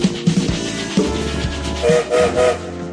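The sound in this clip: Train sound effect: a rumbling, clattering rail sound with brief whistle-like tones near the end, loud and busy throughout the short stretch.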